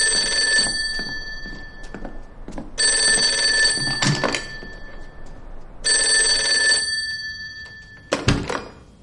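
An electric telephone bell ringing in three long, loud, metallic bursts with short pauses between them, followed near the end by a low thump.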